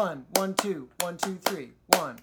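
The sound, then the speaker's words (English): Hands clapping simple number patterns in a music lesson: six sharp claps grouped as two, then three, then one, while a voice counts along. “Everybody can count numbers, not everybody can read music, but in my show, everybody claps number patterns.”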